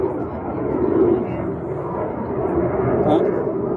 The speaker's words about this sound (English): are you able to hear that fighter jet flying overhead?